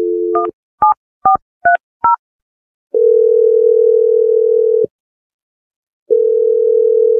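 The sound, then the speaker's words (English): A telephone being dialed: a brief dial tone gives way to a quick run of short, bright keypad tones, then two long steady tones separated by a silent pause. The tones are loud and clean, with no voices. “I'm going to dial the number right now.”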